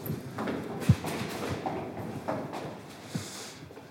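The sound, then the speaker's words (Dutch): Footsteps on a home staircase: a few irregular, soft thuds and knocks spaced about a second apart, fairly faint against quiet background noise. “Dit is ook de trap die ik inmiddels elke ochtend vier keer op en neer loop.”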